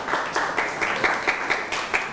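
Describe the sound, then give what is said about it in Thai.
Applause from a group clapping for a friend after a presentation: a steady patter of many hands with a few louder swells, lasting the whole moment with no talk over it. “เอาละครับปรบมือให้กับเพื่อนหน่อยครับ”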